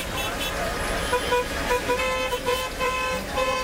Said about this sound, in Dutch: Ja, zo ongeveer klinkt het verkeer in de Marokkaanse stad Casablanca.